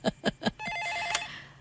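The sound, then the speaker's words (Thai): A telephone rings with three short bursts, followed by a steady, warbling electronic ring. The sound is faint. “ขอโทษทียกโทรศัพท์ก่อน”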